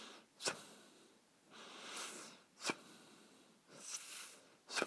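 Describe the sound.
A voice imitates snorting breath through the nose, as if loose mucus were rattling inside. A few sharp, short snorts alternate with longer, breathy rushes of air, all faint and without speech.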